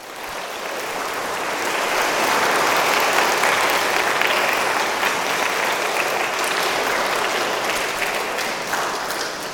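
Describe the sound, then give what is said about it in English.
Applause from a school Mass audience clapping for their teachers: dense, steady clapping that swells slightly and holds for several seconds before easing a little. “So let us all give all our teachers a round of applause.”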